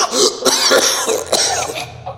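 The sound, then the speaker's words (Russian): A man coughs painfully right after a wet towel is pulled off his face, a rapid run of harsh, rasping coughs in quick succession. “Кто-то стащил с него полотенце, и Влад мучительно закашлялся.”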